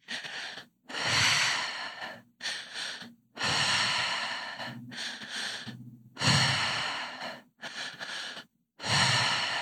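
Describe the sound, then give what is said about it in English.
Deep, slow breaths of a guided breathing exercise: airy, audible inhales and exhales, some long and some shorter, repeat in a paced pattern with brief silent gaps between them. “And when you're ready, starting the breath pattern.”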